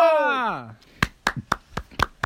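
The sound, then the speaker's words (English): Six slow, evenly spaced hand claps ring out sharply, preceded by a voice whose pitch glides downward. “clap for you. Good job. And then proud of you guys.”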